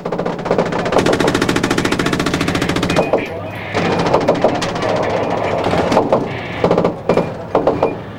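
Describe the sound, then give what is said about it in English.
Rapid bursts of machine gun fire from eight guns sweeping almost empty streets: a long continuous stream of loud, tightly spaced shots, then a short gap, then more sustained fire broken by several sharp, separate bursts. “The Israeli response was a blizzard of machine gun fire into the almost empty streets. Soldiers dismounted, covered by 8 machine guns firing rapid bursts.”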